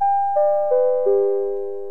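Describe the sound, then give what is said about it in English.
A theatre lobby chime signals the end of intermission with four clear bell-like tones, each lower than the last. Each note is struck and then rings on, and the final tone fades out slowly. “and there goes the chime.”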